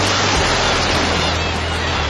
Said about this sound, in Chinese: 有多久没有听到大海的涛声了？